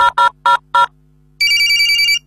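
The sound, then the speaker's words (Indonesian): Telephone ringing while a mobile phone calls a radio station: four short tonal pulses in quick succession, a brief pause, then a longer, bright, sustained electronic ring. “Kita telepon saya langsung deh. Pencet nomor HP nyo.”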